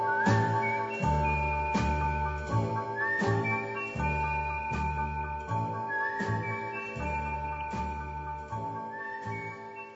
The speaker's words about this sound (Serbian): Stanem sam pod prozor tvoj i zviždim tad naš stari znak.